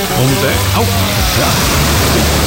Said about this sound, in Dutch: de zee hoor je ook op 80, dat is lekker toch?